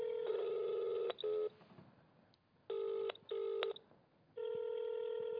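Electronic telephone ringing from an unanswered phone: several bright, buzzing ring bursts, some in close pairs, separated by short quiet gaps.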